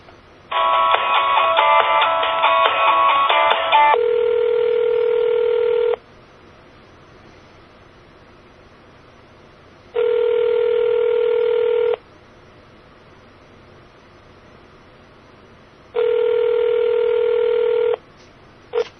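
Telephone ringback tone as a transferred call rings through to voicemail: a dense burst of mixed tones, then three steady two-second rings separated by regular pauses of silence.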